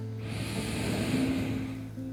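A deep breath is drawn in through the nose during a guided belly-to-chest breathing exercise. It is a soft, steady, airy inhale lasting under two seconds, heard alone and fairly faint.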